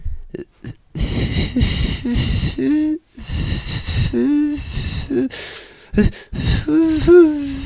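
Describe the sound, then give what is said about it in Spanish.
A man attempting to whistle like a bird, producing breathy blowing, hissy bursts and low warbling hoots in uneven spurts separated by brief pauses, fairly loud and without clear whistled notes. “Vengo aquí hoy para demostrar que mi talento como silbador, es decir, que sé silbar e imitar a cualquier pájaro”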